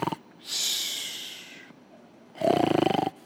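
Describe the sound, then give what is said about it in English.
A man's voice imitates snoring: a long breathy, hissing intake, a pause, then a loud, low rattling snort with fast pulses. No words are spoken. “he was roncando. That's snoring in Spanish. He was snoring because the angel had to hit him.”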